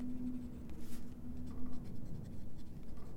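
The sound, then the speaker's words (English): Pen or pencil scratching steadily across paper as someone writes by hand, a faint continuous rasp with small irregular strokes and no talking. “I write whenever I can.”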